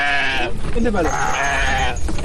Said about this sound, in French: Des camions stationnés sont en train de décharger des moutons, du bétail qui provient de plusieurs localités du pays.